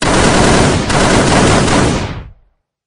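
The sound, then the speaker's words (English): Machine-gun fire from two guns: a loud, dense, unbroken roar of rapid shots lasting about two seconds, then cutting off abruptly. “Have a taste of my two prized machine guns.”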